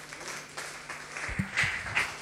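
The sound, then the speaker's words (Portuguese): Applause from a gathering at a religious service: fairly faint, patchy clapping with a few low thumps, swelling slightly toward the end. “Dê um aplauso a Jesus.”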